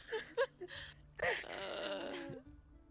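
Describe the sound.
A voice imitates someone choking on their own spit while snoring in sleep. A few short, faint grunts lead into a longer, rough, gurgling groan.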